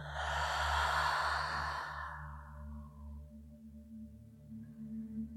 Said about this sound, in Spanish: lo primero es que vas a inhalar profundo por tu nariz y vas a exhalar soltando todo el aire por tu boca.